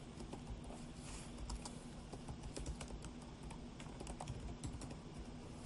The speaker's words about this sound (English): I'll write it in the chat so you know what the spelling is here. So I'll just type this out.